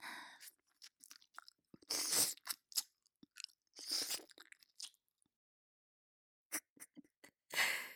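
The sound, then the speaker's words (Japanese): Chewing and eating, with irregular wet crunches and bites coming in uneven clusters separated by brief quiet gaps, faint and close with no talk. “人を食べるのは久しぶりです。ああ、良いお味。”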